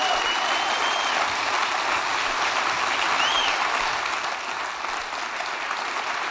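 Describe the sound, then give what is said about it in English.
Audience applause for two performers on a live radio variety show. Dense, steady clapping holds at an even level throughout and eases slightly toward the end. “So give them a hand, everybody.”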